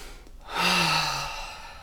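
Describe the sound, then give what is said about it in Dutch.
A deep breath taken during a breathing exercise: a single long, slightly voiced exhale that swells in quickly and then fades slowly, heard alone. “Dus even opnieuw. Doe maar met mij mee. Even ademen.”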